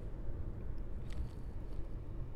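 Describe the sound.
Car driving along a road through Warrawong, a steady, low rumbling road and engine noise that holds at an even, moderate level throughout with no breaks or distinct events.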